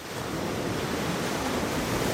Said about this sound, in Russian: И сейчас же задул свежий ветер, наполнил паруса и погнал лодку вперед.